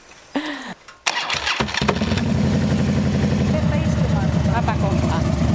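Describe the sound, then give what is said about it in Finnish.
A Honda Shadow motorcycle engine turns over and catches, then settles into a loud, steady, rapidly pulsing idle that runs to the end. A voice is briefly heard just before it fires. “Honda Shadowlla molemmilla. Vai on Honda niin. Käynnistä se, niin annetaan vähän ääninäytettä tänne nauhoille.”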